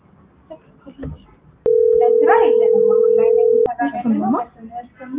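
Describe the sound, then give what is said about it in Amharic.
A telephone ringback tone sounds after a call is dialed: one loud, steady, mid-pitched tone lasting about two seconds, starting and stopping abruptly, while a voice talks before, over and after it. “ተደውሏል ማለት ነው። ይህ እየጠራ”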